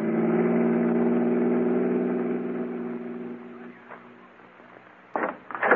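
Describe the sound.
A car engine drones steadily with a low, humming tone that gradually fades as the car drives off, followed by a few brief louder bursts of noise at the end.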